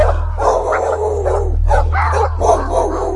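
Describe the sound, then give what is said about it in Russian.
Village dogs barking, yelping and whimpering in an agitated, overlapping chorus of many short, loud calls, over a steady low hum. “Первыми почуяли неладное деревенские собаки. Они подняли истошный вой и начали рваться из дворов.”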